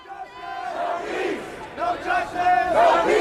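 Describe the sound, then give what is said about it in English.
Protest crowd in downtown Dallas shouting and chanting together, with many voices rising in loud, surging bursts that grow stronger toward the end. “This sound was recorded by filmmaker Kurtz Frausen in downtown Dallas on Saturday, May 30th, the day Jansen and Dondi headed there to protest.”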